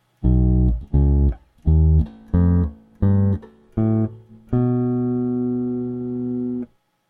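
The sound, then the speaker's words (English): A bass guitar plays a whole tone scale with a slightly gritty, distorted tone. Seven notes are picked with short gaps between them, the first six brief and punchy and the seventh ringing out much longer. “Now, if I was to play you the whole tone version of that, it would sound like this.”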